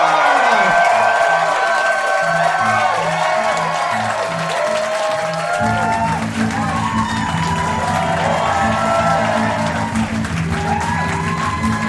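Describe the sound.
A live audience cheers, whoops and applauds as performers from Melbourne, Australia come onto the stage, a loud continuous roar of clapping and shouts over music with a steady repeating beat.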